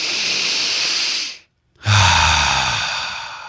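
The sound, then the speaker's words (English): A deep breath drawn in slowly and steadily, then a short silent pause before a long, airy exhale that gradually trails off. “Now let's take a deep breath”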